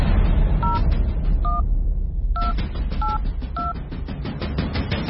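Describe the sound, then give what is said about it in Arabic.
Touch-tone keypad beeps from a call being dialed on a mobile phone: five short two-tone beeps in an uneven rhythm over steady background noise. “ها اتصل من جوالي.”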